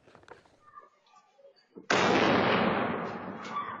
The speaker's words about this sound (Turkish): Önce patlama sesi geldi, ardından korku dolu anlar yaşandı.